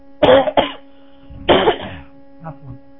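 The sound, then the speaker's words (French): A man coughs during a religious lecture: a few harsh, raspy coughs in quick bursts, then a fainter rough sound, over a steady low hum. “Je remarque que plus je parle, plus j'ai la toux.”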